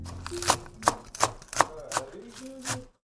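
Food is chopped with a knife during cooking, in a steady, evenly spaced series of sharp chops on a board that stops abruptly at the end.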